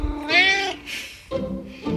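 A cat meows persistently for its dinner: a few insistent, drawn-out calls in quick succession, fairly loud and clear, with no talk over them.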